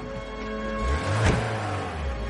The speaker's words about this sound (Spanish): El coche de la Stasi avanza por la carretera.